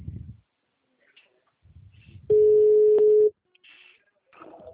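A ringing tone on an outgoing telephone call: a single steady, low-pitched beep about a second long, loud and flat. Faint rustling noises come before and after it.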